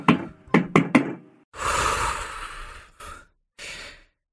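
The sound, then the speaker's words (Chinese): Four quick, sharp, urgent knocks strike a door. A long breathy sigh follows, then two shorter exhalations with pauses between them. “外头就响起了急促的敲门声。”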